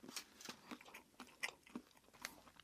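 Chewing and biting into a doughnut: a run of soft, crunchy mouthfuls in an uneven rhythm, fairly faint, with no talk over them.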